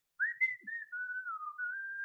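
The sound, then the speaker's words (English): A voice imitates the whistling of a creature drifting closer: one sustained, fairly high whistle lasting about two seconds, dipping slightly in pitch and then holding steady, heard alone. “as they get a little bit closer, you can just kind of hear like a whistling of like a,”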